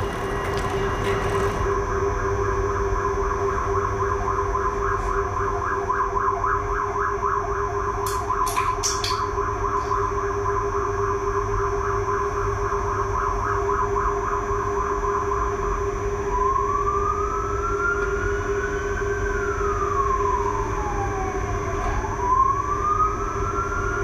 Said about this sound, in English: sirens fitted to the emergency vehicles in Brussels have always been clearly present in the sonic environment.